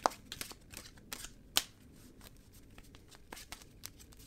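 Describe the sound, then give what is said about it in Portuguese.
Tarot cards shuffled by hand: a quiet run of papery riffles and soft flicks, with a few sharper snaps standing out from the scattered texture and no voices over it. “Vamos embaralhar as cartas”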